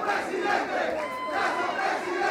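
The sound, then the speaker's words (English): Several hundred people cheer as Guillermo Lasso, newly elected president of Ecuador, prepares to give his victory speech, a continuous, even crowd roar with many overlapping voices. “Several hundred people cheered last night as Guillermo Lasso prepared to give his victory speech.”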